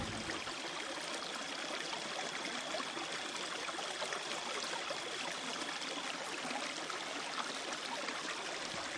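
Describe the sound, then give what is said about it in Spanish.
Running water flows in a faint, steady, unbroken wash of trickling and bubbling, with a thin high whine running through the first six seconds. There are no voices. “Escucho solo... el ruido del agua.”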